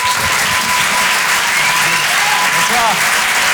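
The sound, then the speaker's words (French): Audience applause welcoming a comedian onto the stage at a comedy club: dense, continuous clapping that stays loud and even for the whole stretch, with no gaps. “Je vous demande de l'encourager. Faites du bruit, s'il vous plaît, pour Boris Cholin.”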